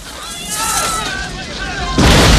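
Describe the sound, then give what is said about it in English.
A clock tower explodes in a huge fireball, a sudden heavy blast bursting out near the end after a rushing, wind-like rumble. “Just as they're about to fire, the clock tower explodes in a huge ball of flames.”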